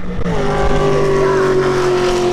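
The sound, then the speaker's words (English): Engine of a car its driver modified into a race car, running at 100 mph down a straightaway at an automotive research center, a loud, steady, harmonic-rich drone that holds its pitch throughout. “her 18-year-old daughter blazing at 100 miles per hour down the straightaway at the North Carolina Center for Automotive Research on Sunday in a vehicle that she herself modified to be a race car.”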